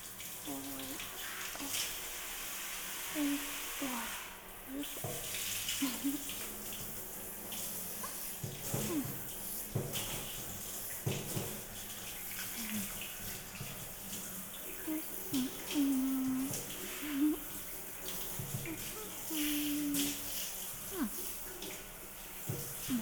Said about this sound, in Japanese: 流すからちょっと待ってくださいね。あったかいの出てきたっす。じゃあ流しますよ。